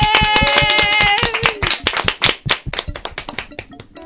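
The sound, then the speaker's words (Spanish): Passengers aboard a plane stand and applaud, starting as dense, bright clapping that gradually thins into scattered individual claps. “Todos los pasajeros a su alrededor, sorprendidos, presenciaban la escena, se levantaron y aplaudieron.”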